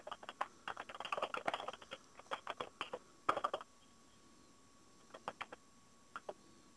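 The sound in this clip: Quiet clattering keystrokes on a computer keyboard as a URL and password are typed, several quick clusters of taps, then a pause and a few isolated keypresses.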